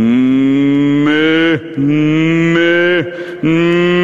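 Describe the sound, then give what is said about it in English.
A human voice imitates a fidgeting bull calf mooing while it is carried in someone's arms. It makes a few long, loud, wavering bleating moos in a row, with no other sound, and each moo drops sharply in pitch at its end. “as I'm carrying his bull calf, he's fidgeting, and he's mooing, and he's trying to get down”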